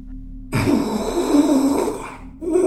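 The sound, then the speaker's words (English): A creature hiding in a cupboard breathes with a long, nasal, rasping exhale, then a second harsh breath begins just after a brief pause. “The thing breathed, the sound nasal and rasping.”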